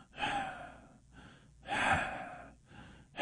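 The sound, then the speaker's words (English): A voice imitates a train breathing as it sits at the end of the line: four hissing breaths in a slow, steady rhythm, alternating long loud ones with shorter, softer ones. “Whenever a train gets to the end of the line, it sits there and it goes,”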